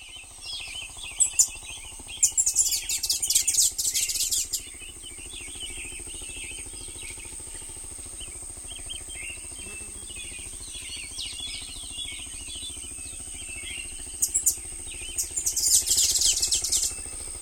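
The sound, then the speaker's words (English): An orange-headed tanager sings alongside a black-billed thrush, giving two bursts of rapid, high chirping notes separated by a long lull, over a steady faint background hum. “Orange-headed tanager, one with black-billed thrush.”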